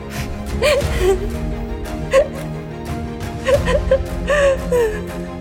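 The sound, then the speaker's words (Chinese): A woman, Hagar from the Bible story, cries beneath a small tree, her broken, whimpering sobs rising in short bursts over a steady low background. “最后，夏甲把以实玛丽放在一棵小树的底下，她哭了起来。”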